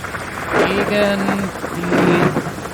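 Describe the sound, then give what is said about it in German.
Hurricane wind and rain lashing a mostly evacuated area, a loud, continuous roar of rain and gusting wind that swells and eases slightly but never lets up. “es ist windig, es ist nass, es ist sehr laut.”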